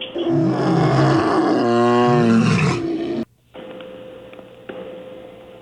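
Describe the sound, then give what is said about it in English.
A lion's roar: one long, loud, rough roar with stacked harmonic bands that lasts about three seconds, then cuts off abruptly. A quieter steady electronic hum with a couple of faint clicks follows. “It is indeed a lion.”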